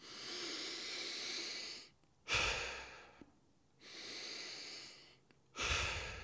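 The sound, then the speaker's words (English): Deep breathing demonstration in which a person breathes audibly: two long, steady, hissing breaths, each followed by a shorter, louder, forceful breath, with brief silent gaps between. “If you take fast, rapid, deep breaths in, like, it changes your nervous system”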